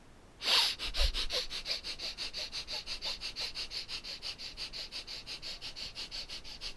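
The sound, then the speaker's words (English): Breath of fire yoga breathing, rapid rhythmic nasal puffs after one stronger opening burst, many short even pulses of sniff-like breath repeating several times a second, fairly soft and alone. “And once again, we'll do the breath of fire and draw the energy up to the throat chakra.”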